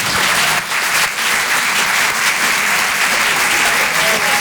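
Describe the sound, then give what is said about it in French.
A comedy club audience applauds a comedian taking the stage with loud, dense clapping that stays full throughout. There is one brief dip early on. “Faites du bruit, s'il vous plaît, pour Sophia Bellaves.”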